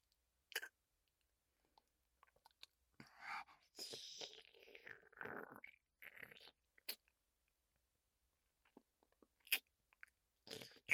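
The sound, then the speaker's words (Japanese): Quiet, moist chewing of a thick, jelly-like food comes in soft irregular bursts of smacking and small mouth clicks, with longer silent pauses between them. “ゼリーみたいに濃厚で美味しそう。いただきます”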